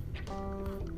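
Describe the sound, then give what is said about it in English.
A running washing machine gives off a low, steady rumbling hum with a brief tonal whine in the middle. “if you hear that in the background, it's just the washer being annoying, because it's like that.”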